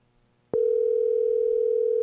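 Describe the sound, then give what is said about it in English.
An outgoing telephone call produces a steady ringing tone that starts abruptly and holds at one even pitch to the end. “Okay, it should ring. I'll be surprised if he answers.”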